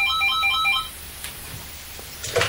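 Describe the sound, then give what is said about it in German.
An electronic telephone ringtone sounds in a home after dinner: a quick run of bright, warbling beeps for just under a second, then it cuts off, leaving a quiet room with a few faint clicks. “2 Abende später klingelte nach dem Essen bei Brunetti zu Hause das Telefon und Paola nahm ab.”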